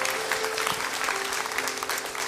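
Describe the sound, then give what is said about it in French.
A church audience applauds God during a worship service, producing dense, continuous clapping from many hands that stays loud and even throughout. “Est-ce qu'on peut acclamer notre Dieu encore une dernière fois ?”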